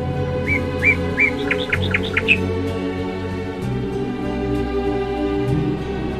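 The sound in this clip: Small birds chirp in a short run of several quick, high tweets that climb in pitch, then stop, leaving a steady low background.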